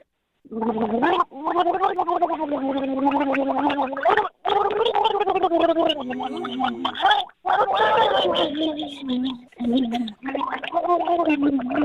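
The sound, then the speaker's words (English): A person gargles a Christmas tune with a mouth full of liquid, a bubbly, wavering melody in a mid-range voice that rises and falls across several phrases, separated by brief pauses. “Go ahead and gargle for us. All right, here I go.”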